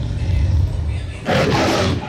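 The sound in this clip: A tiger roar from an old television channel ident. A dense, rasping roar bursts in over a low rumble during the second half and stays loud until the end.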